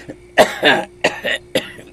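A grandmother coughs a few times in quick, harsh bursts separated by brief pauses. Each bout is dry, raspy and fairly loud, with no talking over it.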